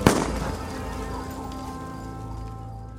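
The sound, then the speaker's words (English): A single Colt revolver shot is fired inside a barn. One sharp, loud crack comes at the very start, followed by a long, noisy ringing decay over a steady low hum. “He raises his Colt revolver, takes aim through a gap in the barn boards, and shoots.”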